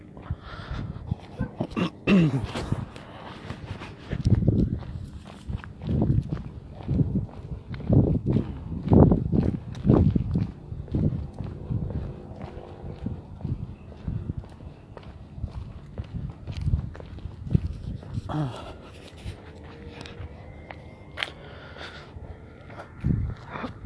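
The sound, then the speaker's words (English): Footsteps of a person walking outdoors on a cloudy, cold day, a long series of irregular soft steps under a constant low rumble of background noise. “And yeah, I'm just walking right now.”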